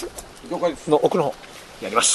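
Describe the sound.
Soft cooing of a pigeon or dove, a few low, warbling call phrases in close succession, followed by a brief rougher note near the end.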